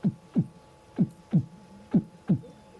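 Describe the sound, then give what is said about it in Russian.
Heartbeat with three lub-dub cycles, six low thumps in even pairs about a second apart, over a faint steady hum. “Is how the heart beats.”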